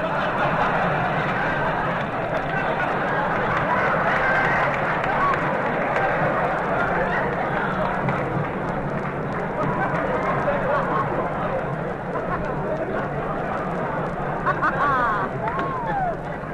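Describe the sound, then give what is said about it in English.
A man's footsteps run down a hospital hall in a rapid, continuous patter that carries on steadily at a fairly loud level from start to finish. “Hey, Mr. Benny, look at that guy running down the hall.”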